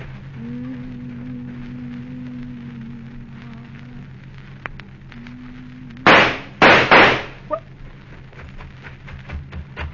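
Gunshots in a radio drama: a few sharp, loud bangs in quick succession break over a low, steady motor hum, followed by a fainter crack.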